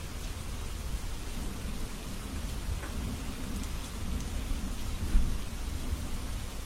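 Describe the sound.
Steady rain falls as a dense, continuous hiss over a low rumbling undertone. It stays fairly faint and even throughout, with no voices.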